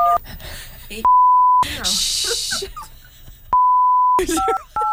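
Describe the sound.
Keypad tones as a telephone is dialled: short dual-pitch beeps at the start and end and two longer steady electronic tones, with people talking in the gaps between them.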